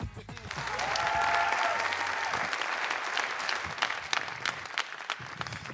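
Audience applause welcoming a guest onto an event stage: dense, steady clapping from a crowd that swells quickly and holds for about six seconds, with sharper individual claps standing out toward the end.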